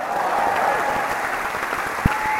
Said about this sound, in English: let's keep on applauding.